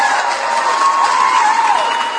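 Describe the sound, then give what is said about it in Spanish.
Applause from a crowd: a steady, dense wash of clapping that carries on evenly from start to finish with no break. “los aplausos, por favor”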